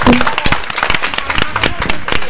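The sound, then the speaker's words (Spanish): Clapping from a group: many sharp, irregular claps come in quick succession, loud and uneven, filling the whole short burst. “un aplauso para todos los que estamos enfermos y no lo saben reconocer.”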